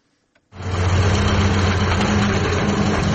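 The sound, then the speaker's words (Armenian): Engine of a homemade limousine assembled from the remains of three different cars starts abruptly after a faint click, then runs on in a loud, steady, low rumble with no voices. “3 տարբեր ավտոմեքենաների մնացորդներից հավաքված այս փոխադրամիջոցը Լոռիում բոլորին է հայտնի։”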